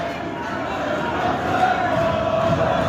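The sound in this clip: Football stadium crowd cheering during a match, a loud, sustained roar that swells slightly toward the end, with a voice talking over it.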